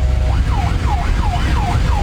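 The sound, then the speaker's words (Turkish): Ambulance siren in heavy traffic as it pushes along the left lane toward a hospital: a fast, repeated rising-and-falling wail over a loud, low rumble of engines. “Ambulans sol şeritten ilerleyerek hastaneye ulaşmaya çalışıyordu.”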